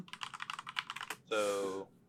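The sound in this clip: Rapid keyboard typing while notes are written, a dense run of many clattering key taps, then a short voiced hum before the sound ends.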